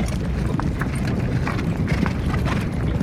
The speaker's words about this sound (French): Les cavaliers de l'enfer arrivent au galop dans un nuage de poussière.